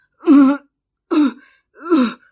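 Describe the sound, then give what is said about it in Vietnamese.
A frail, sickly man gives three weak, throaty coughs, evenly spaced and alone against silence. “Sư đàn chủ ốm yếu ho mấy tiếng.”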